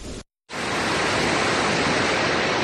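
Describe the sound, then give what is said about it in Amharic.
The Sor waterfall in Bicho district, Illu Aba Bor zone, Oromia, Ethiopia, roars as a steady loud rush of falling water, cut by a brief moment of silence near the start. “ይህ በኢሉ አባቦር ዞን በቾ ወረዳ የሚገኘው የሶር ፏፏቴ ነው።”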